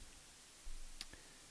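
Two quick, faint clicks from the flipper of a folding knife with a scalpel-style blade and pocket clip, sounding in close succession after a brief low rumble of handling.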